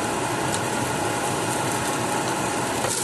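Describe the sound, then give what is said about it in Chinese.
Onions sizzling in a frying pan over medium-high heat, a steady, dense crackling hiss that stays even and fairly loud throughout with no voices. “开始有声啦，洋葱摆落去”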